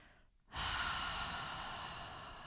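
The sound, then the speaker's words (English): A long, steady exhale through the mouth during a guided relaxation breathing exercise. It begins after a brief quiet pause as a soft, airy rush of breath, holds evenly and fades slightly toward the end. “Notice your body relaxed, full, present. Exhale the mouth.”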